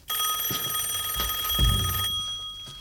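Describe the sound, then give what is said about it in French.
Telephone ringing: a bright, loud, continuous bell tone that holds steady for about two seconds, then stops. “Mais qui sonne à cette heure-là”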